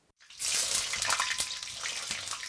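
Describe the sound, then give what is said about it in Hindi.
Eggplant pieces sizzle as they are added skin side down to hot oil. After a brief silence a loud, steady hiss rises abruptly and holds, dotted with scattered sharp crackles and pops. “तो जब तेल सही तापमान तक गर्म हो जाए तब बैंगन के टुकड़े डाल दीजिए।”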